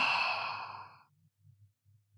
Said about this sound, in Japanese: 吸って、吐いて、